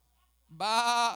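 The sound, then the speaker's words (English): A sheep lets out a single loud, nasal bleat that breaks sharply out of near silence and holds for about half a second. “See, he was out there with them sheep.”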